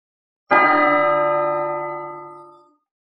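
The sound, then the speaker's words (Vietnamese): A large golden bell is struck once with a deep, resonant clang. The loud attack rings on with rich sustained overtones that slowly fade over about two seconds, alone and without voices. “Tiếng chuông dằn dặc lại vang lên.”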